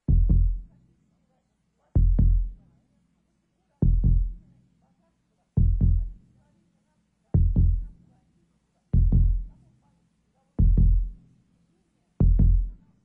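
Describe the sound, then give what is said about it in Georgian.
A human heartbeat thumps slowly and evenly, eight double beats, each a deep lub-dub pair, spaced less than two seconds apart with quiet gaps between. “ეს ადამიანის გულისცემა, რომელიც სუნთქვასთან ერთად თქვენი სიცოცხლის მთავარი რიტმია.”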